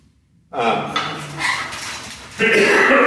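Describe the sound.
A whiteboard is handled in an attempt to flip it over, giving bursts of rattling, clattering noise with a louder clunk of movement near the end.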